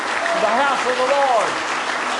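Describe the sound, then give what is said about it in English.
A church audience clapping hands in praise during a service, steady and dense throughout, with a voice calling out over the clapping. “Let's give him a good hand clap of praise.”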